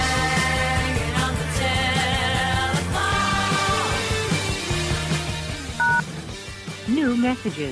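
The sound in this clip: Telephone dialing tones from a call to a show's call-in hotline: a few short, clean beeps heard amid a dense, loud bed of other sound.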